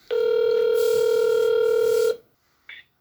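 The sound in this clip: A phone call rings out with a single steady ring tone that holds for about two seconds, followed by silence and one short, higher blip.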